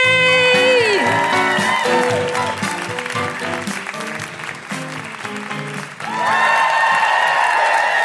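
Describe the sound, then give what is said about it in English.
Applause and whooping cheers from a live comedy audience at the Edinburgh Fringe welcoming a comedian to the stage. Loud clapping mixes with sliding woo-hoo calls, dips in the middle, then swells again near the end. “Please put your hands together and make incredible welcoming woo-hooing noises for the wonderful Celya AB!”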